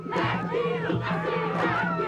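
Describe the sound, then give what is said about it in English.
A group performs a Māori haka war dance as an official welcome for a visiting US president in New Zealand. Loud, rhythmic chanted shouts from many voices rise and fall on a repeating beat. “A new experience, facing up to the haka.”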